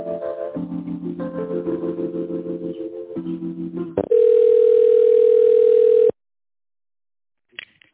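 Telephone tone while a call connects: shifting, layered electronic tones lead into a steady, loud single tone that lasts about two seconds and stops abruptly. Silence and a faint click follow.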